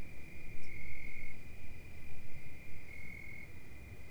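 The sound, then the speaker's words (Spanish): Insects chirp outdoors in a thin, steady, high trill that pulses continuously and grows stronger twice, over a low rumbling background. “ligeras voces, insectos sonando, más insectos sonando.”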